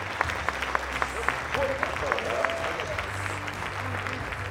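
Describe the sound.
Audience applause welcomes a speaker to the stage at a real estate industry event, with steady, dense clapping throughout and a faint voice underneath.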